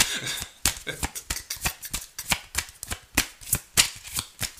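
Tarot cards are shuffled by hand, producing many sharp riffling snaps and flicks in a quick, uneven rhythm, fairly crisp and loud, with no talk over them.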